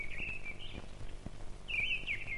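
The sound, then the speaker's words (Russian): A thrush singing its first, still timid song of the season, faint high chirping phrases in two short bursts separated by a pause. “Свою первую песню поет дрозд. Слышите? Пока еще очень робко.”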